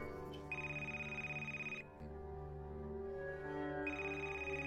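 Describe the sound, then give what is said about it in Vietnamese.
A telephone rings again, sounding as two faint bursts of a high electronic ring tone separated by a short pause, over a steady low musical drone. “Bác Toàn vừa tắt máy cuộc gọi với thầy ba thì điện thoại lần nữa đổ chuông”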